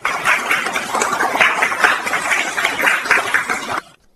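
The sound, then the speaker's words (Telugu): An audience claps for a seventh-grade student's recitation at a school event. The clapping is dense and steady, swelling and dipping a little, then stops abruptly just before the end. “మరి చప్పట్లతో అభినందిద్దామా.”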